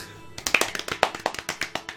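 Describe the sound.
Hand clapping cheers on a child who picked a song: after a brief silence comes a steady run of many sharp, even claps at a moderate level, with no talk over them.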